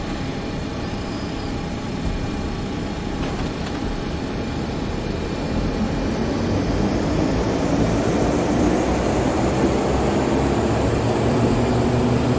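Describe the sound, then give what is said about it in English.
Aircraft engine drone from a taxiing plane in a flight simulator video game, with faulty throttle sounds: a steady, broad, rushing roar that swells slightly louder partway through and then holds level, with no voices. “you should not be hearing that sound when taxiing. It's throttle sounds are really messed up with this aircraft”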